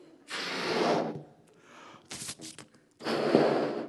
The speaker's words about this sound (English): Just wanted you to get the exhale.